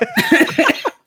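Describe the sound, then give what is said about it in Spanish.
A person coughs playfully, with a few short, voiced bursts in quick succession, followed by one faint brief sound. “No, que no tosa, que ya no puede estar tosiendo. Está jugando con la tos.”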